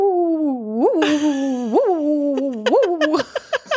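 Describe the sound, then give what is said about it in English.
A person's voice imitates a pet dog howling at the neighbours: a few wavering, rising howl-like swoops over a steady vocal tone, ending in several short sharp bursts. “That's like Pepper when she barks at the neighbors. She really howls and she goes like,”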